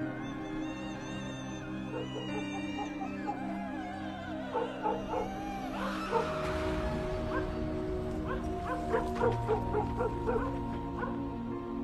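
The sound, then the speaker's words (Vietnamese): A black dog barks loudly again and again with sharp yips and whimpering tones. The barks cluster in the second half over a steady humming background. “Ông còn nghe có cả tiếng con chó mực, nó vẫn đang sủa lên ầm ĩ.”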